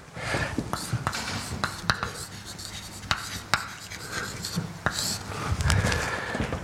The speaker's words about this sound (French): Donc je vais l'écrire ici.